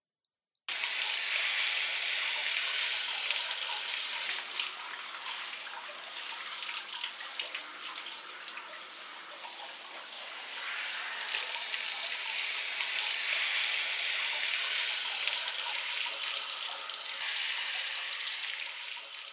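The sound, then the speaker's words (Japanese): Running water hisses steadily during a rinse. After a brief silent start, a continuous, fairly loud rushing wash of water stays even throughout, with no talk. “それでは流していきますね。”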